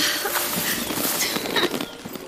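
Horse hooves clip-clopping as a young bride rides on along a road on a warm day: a run of irregular hoof strikes at moderate loudness, with no voices.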